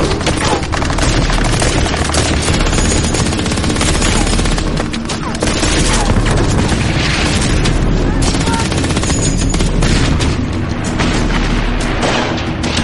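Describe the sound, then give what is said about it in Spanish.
Heavy gunfire pours from bunkers onto a beach during a landing: a dense, continuous barrage of shots and booms, loud and unbroken from start to finish. “Desde los búnkeres disparaban hacia la playa, impidiendo que pudiéramos avanzar.”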